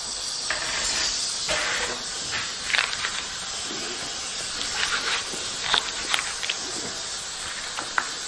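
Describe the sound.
Food roasting slowly sizzles with a steady, soft hiss, and faint irregular crackles and pops rise above it here and there.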